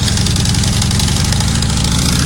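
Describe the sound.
Motorcycle engines drone steadily from a group of 18 motorcycles on a road trip nearing New Orleans, a loud, continuous low rumble with no break and no voices.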